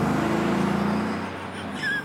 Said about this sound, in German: Weißt du, was ich ein bisschen seltsam finde? Dass das Auto wegfährt und wieder.